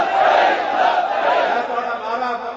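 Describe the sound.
A crowd shouts a slogan in unison at a gathering about Kashmiri Muslims. Loud massed voices hold a sustained, roaring cry throughout.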